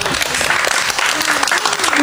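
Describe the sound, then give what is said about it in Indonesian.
A group claps for a friend at a children's sing-along. Dense, steady clapping fills the whole moment, with a faint voice mixed in underneath. “Beri tepuk tangan untuk teman kita.”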